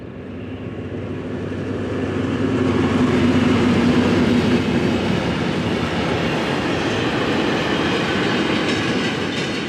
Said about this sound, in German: Wenig später fährt die ehemalige Reichsbahn-Diesellok 112-331 mit leeren Güterwagen an den Fotografen vorbei.